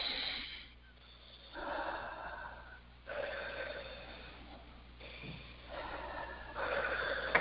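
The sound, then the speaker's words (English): Slow, deep breaths from a person during a guided healing session, a few long airy inhales and exhales separated by short pauses, fairly soft and with no talk. “And 3 nice deep breaths.”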